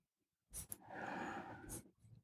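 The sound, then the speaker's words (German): A person inhales deeply during a guided breathing exercise: one long, breathy intake of air that swells and holds steady, preceded by a brief sniff, followed by a short, softer breath, with no talking. “Lass uns gemeinsam einatmen”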